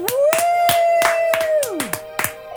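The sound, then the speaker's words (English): Sharp, bright hand claps repeat several times at a roughly even pace over a held tone that slides downward near the end. “You do good intros and claps”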